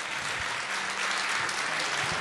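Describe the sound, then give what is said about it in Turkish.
Steady applause from an audience at a gathering with people from Malatya, dense overlapping clapping that stays even and fairly loud from start to finish. “Ben çok gariban kaldım. Bir de beni alkışlayın bari.”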